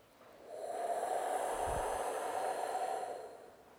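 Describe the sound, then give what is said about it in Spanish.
Soft, airy breathing during a guided meditation, drawn in through the nose and let out through the mouth. A single quiet, hissing breath swells and fades on its own. “Tiene que sonar como el aire. Y de nuevo, inhalas hacia el lado izquierdo por la nariz. Exhalas por la boca.”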